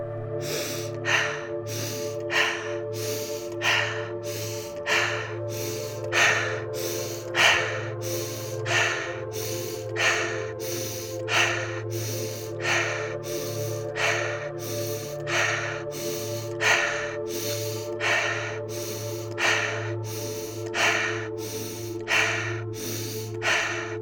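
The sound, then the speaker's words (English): Rapid rhythmic breathing during a breathing exercise, in through the nose and out through the mouth: many sharp, evenly spaced breaths keep a steady brisk pace over a continuous low musical drone. “Keep the pace. Inhale, exhale, inhale, exhale. Keep going for about 1 minute.”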